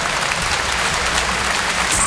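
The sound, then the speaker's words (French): Audience applause at a live comedy show: a continuous, even wash of many hands clapping at a steady level, with no pause or swell across the short stretch. “Merci et applaudissements pour ma meilleure amie, Anne Roumanoff.”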